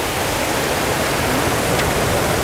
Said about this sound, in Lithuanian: Bet čia upė, ne? Upė.